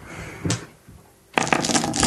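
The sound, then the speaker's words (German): Dice clatter during a tabletop vampire role-playing game, as dice are picked up and rolled. A brief rattle is followed by a quiet lull, then a longer burst of rapid clicking tumbles across a hard surface until the end, with no talk. “Dann hast du ja 2 zusätzliche Würfel. Kannst jetzt nochmal die Würfel für Geschick und Nahkampf nehmen.”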